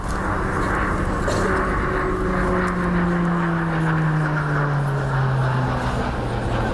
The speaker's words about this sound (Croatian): Nakon njih uslijedio je atraktivan zrakoplovni program uz hrvatske Rafale i letjelice zemalja saveznica.